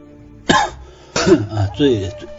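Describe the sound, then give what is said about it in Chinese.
A person with a cold coughs three times, each a short, harsh, throaty burst with some voice in it, spaced about half a second apart. “最近有点感冒咳嗽啊，不好意思啊。”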